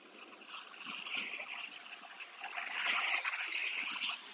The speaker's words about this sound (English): So you get to experience the ocean tonight.